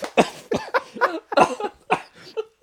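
Repeated coughing from someone who has just inhaled beer: a fit of many sharp, rough bursts in quick succession, moderately loud, with no talk over them.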